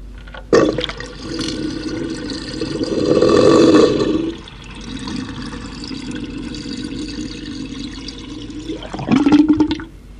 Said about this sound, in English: Travelling extensively as I do, I have found that wash basins are each as individual in the sounds they make as are we human beings. Variable suction accounts for most of their musical attributes,